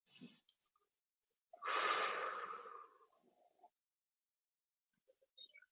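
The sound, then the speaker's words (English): A deep breath taken during a guided grounding exercise: one long, loud, airy breath that swells and then trails off, with a brief soft breath sound just before it and faint small sounds near the end. “Let's take a few deep breaths here.”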